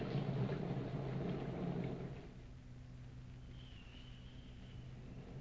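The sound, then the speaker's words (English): Rain falling outside a cave during a storm makes a faint, steady hiss, heavier for the first two seconds, then settling into a softer, even patter. “It's growing darker outside the cave. I believe the rain has cooled old Smoky Mouth off a bit.”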